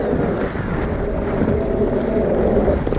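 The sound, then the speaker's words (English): Steady wind and water noise surround a small dinghy on the water beneath an oil rig, forming a dense, continuous rumble with no distinct events. “Just at the moment, I'm in a dinghy right below the rig”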